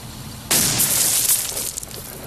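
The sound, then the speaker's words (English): A single loud gunshot, a warning shot fired in a tense standoff, bursts out abruptly and leaves a harsh, hissing tail that fades over about a second and a half. “Damn warning shot!”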